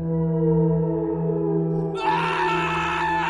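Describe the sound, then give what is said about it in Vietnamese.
A woman screams in terror from behind a storage shed: a loud, sustained, high-pitched cry that turns harsher and more ragged in its last second. “nghe tiếng la thất thanh vang lên từ sau nhà kho”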